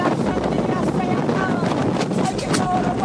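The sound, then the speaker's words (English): Strong wind near a forming tornado roars and buffets the microphone without letup, a dense, steady rush that all but buries a faint voice underneath. “You can see her, like, you can barely hear her praying anymore because of the wind.”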